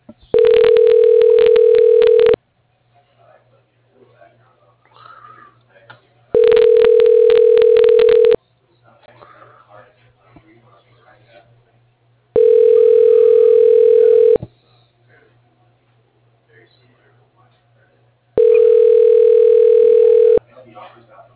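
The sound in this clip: Steady mid-pitched telephone ringing tones sound while a call is dialed through an office voicemail directory. Four even bursts of about two seconds each are separated by longer, nearly quiet gaps.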